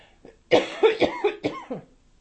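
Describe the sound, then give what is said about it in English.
A person coughing in a short fit of several harsh, throaty coughs in quick succession, fairly loud and alone with no talk. “Excuse me for a minute, I need to cough.”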